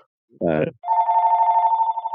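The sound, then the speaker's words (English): A telephone left switched on rings: after a brief burst of voice, a steady, warbling electronic ring tone pulses on without a break. “somebody forgot to shut my phone off again.”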